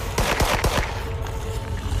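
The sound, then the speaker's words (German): Gunshots fired at a giant spider-like creature in the ruins of a former shopping street: four sharp cracks in rapid succession within the first second, over a dense, rumbling background that continues afterward. “schießen Sie, verdammt! Worauf warten Sie?”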